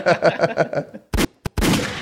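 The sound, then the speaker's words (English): Gunshots ring out as three sharp, loud bursts right after a short rhythmic run of voiced syllables, the final blast longer and ringing out. “Oh, shots fired.”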